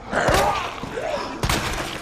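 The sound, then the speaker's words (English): An enemy's head explodes in a video game, heard as two abrupt bursts, one early and one later, amid ongoing game sounds. “Oh, yes, his head exploded. That's good. That means he's dead for good.”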